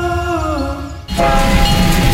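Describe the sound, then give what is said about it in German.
A steam locomotive on a park railway gives a steady, sustained whistle tone, then a loud, continuous rushing rumble of the running train takes over. “Am 6. Juni wird die Parkeisenbahn Cottbus zum Abenteuerspielplatz für die ganze Familie. Erlebt die Dampflok Graf Arnim live in Fahrt”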